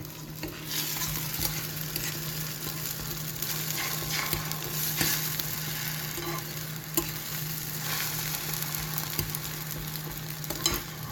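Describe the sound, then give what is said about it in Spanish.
An omelette fries in a pan with a steady, even sizzle and hiss. A few sharp clicks stand out now and then, and no one speaks. “Lo echamos todo otra vez a la sartén y hacemos la tortilla.”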